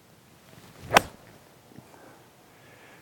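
A golf club strikes the ball on a 125-yard approach shot, hit slightly fat from a stance with the ball back, giving one sharp, crisp crack that stands alone against faint background noise.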